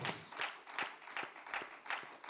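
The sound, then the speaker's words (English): Rhythmic hand clapping at a church praise service, soft, evenly spaced claps landing in a regular beat of roughly one every half second. “Can we give him a hand clap of praise tonight?”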